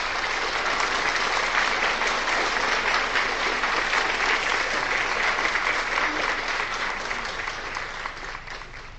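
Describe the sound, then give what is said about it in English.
Sustained applause from a crowd celebrating the approval of a long-awaited change: dense, steady clapping that stays loud throughout and tapers slightly at the end. “people all over the world are celebrating, clapping.”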